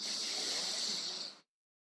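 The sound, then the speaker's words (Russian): One long, deep in-breath, taken as part of a calming breathing exercise, sounds as a soft, steady, airy hiss for well over a second before stopping abruptly into silence. “Давайте сделаем глубокий вдох.”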